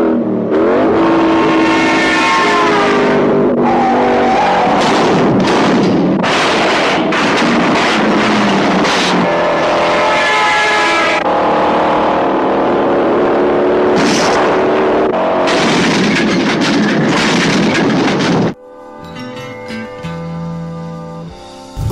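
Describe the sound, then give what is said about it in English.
Original theatrical trailer for the film Bullet, filled with loud car engines revving and accelerating in bursts, ending in a quieter stretch of softer tones. “Yes, this was the trailer of Bullet, yes, in original theatrical version”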